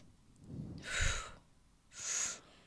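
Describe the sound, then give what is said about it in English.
Two soft, airy breath sounds, each about half a second long, from deep breathing through the belly and mouth, with quiet pauses around them. “So if you breathe from your stomach and your mouth, you'll Buddha belly out.”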